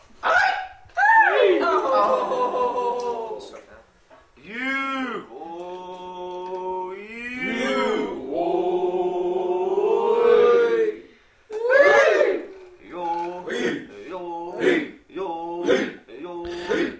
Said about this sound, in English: We're listening to a traditional song from the Na-Chi Nation, which I recorded at the annual powwow held at the Grand Village in Natchez,